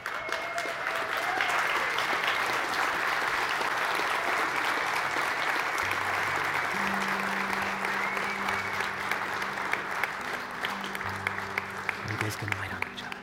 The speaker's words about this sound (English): And the rest of you guys can just clap and go crazy, because they're representing